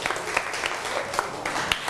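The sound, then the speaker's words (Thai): Students in a classroom applaud their classmates with dense, crackling clapping. It stays steady and fairly loud for the whole two seconds, with scattered sharper claps and no talking. “ปรบมือให้กับเพื่อน”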